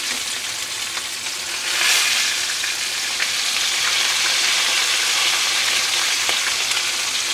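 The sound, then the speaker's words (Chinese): Meat sizzles in hot oil in a pan as it is turned over. A loud, steady crackle runs throughout, with a brief surge in the sizzle about a quarter of the way in. “然后同时也逼出它的油脂，这样的话就可以起锅了。那一面大概烤个两到三分钟之后呢，我们就把它翻面。”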